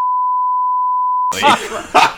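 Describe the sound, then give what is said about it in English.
A single censor bleep: a steady, loud, mid-pitched sine tone holds for over a second, then cuts off abruptly as people resume talking. “I gotta bleep two things.”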